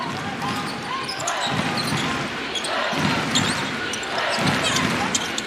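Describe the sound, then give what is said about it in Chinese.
A basketball is dribbled up the court during a game, its bouncing thuds recurring steadily beneath continuous crowd noise and an excited commentator talking throughout. “选择运球到前场”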